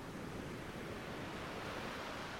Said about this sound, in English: As the waves will approach and retreat regardless.